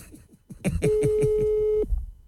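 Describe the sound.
Telephone ringing before a call: a single steady, mid-pitched ring tone lasting about a second, loud and sustained over other sounds before cutting off.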